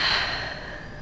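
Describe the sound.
A patient draws a single breath while rehearsing breath-holding for radiation treatment. It is a short, airy hiss lasting about a second, easing slightly as it goes.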